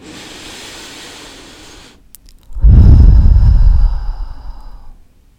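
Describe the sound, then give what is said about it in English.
A deep breath during a guided breathing exercise: a long, soft inhale of about two seconds, a brief pause, then a louder, rushing exhale that slowly fades away. “Inhale and exhale.”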